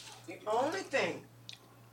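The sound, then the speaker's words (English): Chewing a cracker topped with caramel nut, pumpkin and cheese: soft, moist mastication sounds mixed with brief voiced murmurs from the person eating. “I'm going to taste it because y'all this people be hyping me up.”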